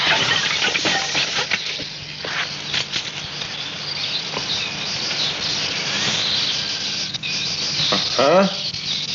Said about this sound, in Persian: بارون بند اومد. چرا ساکت شد؟